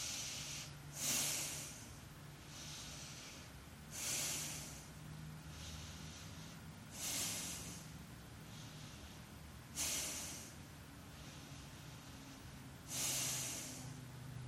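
Breathing while holding a yoga pose: five forceful, hissing exhales evenly spaced about three seconds apart, with softer, airy inhales between them, quiet overall over a faint steady hum.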